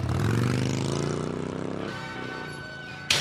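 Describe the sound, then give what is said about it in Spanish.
A motorcycle with a sidecar runs with a rumbling, pulsing engine drone whose tones shift in pitch and slowly ease off, ending in an abrupt knock. “ya le veo arrancando la moto”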